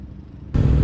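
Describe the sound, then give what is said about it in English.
Road traffic hisses past on a wet, five-lane road on a rainy day. A steady wash of tyre and engine noise surges suddenly louder partway through. “You can see that there's still five lanes of vehicle traffic.”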